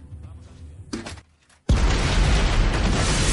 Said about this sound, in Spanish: El cubertizo explota.